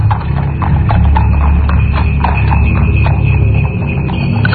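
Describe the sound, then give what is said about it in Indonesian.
Hooves of a horse-drawn carriage clip-clop as it passes in front of a hotel, a steady run of many hoof strikes over a constant low rumble. “mendengar seperti ada kereta kuda yang jalan lewat depan hotel ini.”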